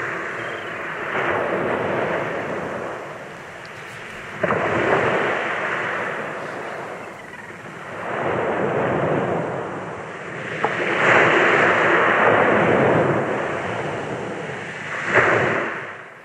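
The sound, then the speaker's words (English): Waves break on the Norfolk coast in several broad, rushing surges of surf that swell and subside in slow succession, with no voices. “all around the Norfolk coast, you can hear this lovely sound at this time of the year. I just like to sit by the seaside and just listen to this.”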